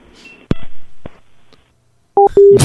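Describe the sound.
Telephone keypad tones during a call: a few faint clicks, then a couple of short, loud electronic beeps near the end, followed by a burst of hiss.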